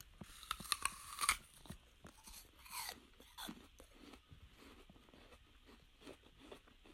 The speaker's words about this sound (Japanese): とにかくまあ、貴重なリンゴっていうことで、もう一口。